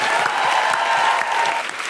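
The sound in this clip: Audience applause, a brief burst of many hands clapping at a steady, fairly loud level with a few sharper individual claps standing out.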